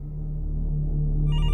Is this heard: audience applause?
no